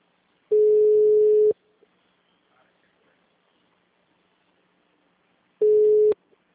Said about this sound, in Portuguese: Opa, tô ligando agora.